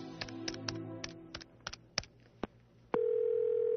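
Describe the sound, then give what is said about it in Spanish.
Several sharp clicks as a telephone number is dialed by hand, followed by a steady, unbroken telephone tone that holds to the end. “Antes de acostarme, y en previsión de que mi teléfono estuviera intervenido, marqué el número de la Cancillería Española.”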